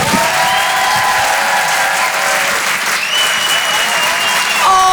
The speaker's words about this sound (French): Faites du bruit s'il vous plaît pour le phénomène Paul Taylor.